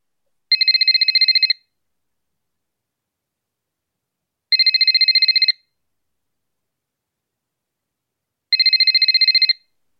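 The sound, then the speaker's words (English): Ringback of a telephone on an outgoing call: three evenly spaced bursts of a high, warbling electronic trill, each about a second long and separated by silence. “Ring him. I'll dial his number now.”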